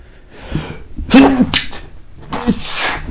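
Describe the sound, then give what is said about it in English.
A person sneezes on camera: one sudden, loud, breathy burst with a brief vocal catch near the middle, framed by softer breathing and rustle. “Is this my first time sneezing on camera? That's crazy.”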